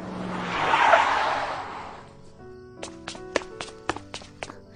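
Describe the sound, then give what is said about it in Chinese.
A black BMW drives into a garage: a broad engine-and-tyre whoosh swells and then fades over the first two seconds, followed by a few sharp clicks and taps. “随着门缓缓的打开，一辆黑色宝马车朝着车库驶去。”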